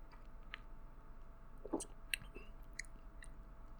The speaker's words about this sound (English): some coffee creamer, stevia, and a little bit of whipping cream. So I haven't tried it yet, so let's try it together and see if it tastes good